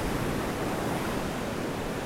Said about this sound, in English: But this beach is just empty. There's very few people here. And it's gorgeous. But here you can swim a little deeper.